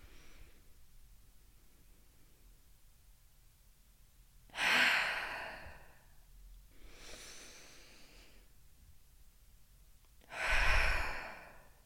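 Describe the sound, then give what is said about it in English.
A deep breath drawn in through the nose, held, then let out: soft, noisy airflow with a strong inhale, a fainter breathy pause, and a loud sigh-like exhale, with no talking. “Let's breathe in through the nose. Hold for 3. Then exhale. All right, ready? Breathe in.”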